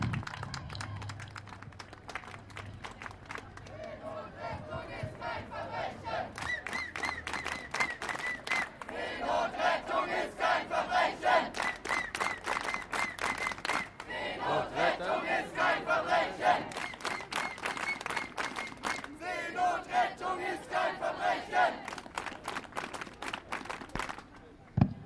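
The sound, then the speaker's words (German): A loud crowd at a street demonstration for sea rescue shouts and chants over rapid, steady rhythmic clapping. The din keeps up with little letup after a quieter opening few seconds. “Danke, es ist gut, dass ihr so laut seid.”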